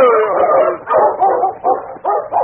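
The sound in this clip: A dog barks and whimpers in several whiny, harmonic bursts that come in quick succession, loud and fairly steady in strength.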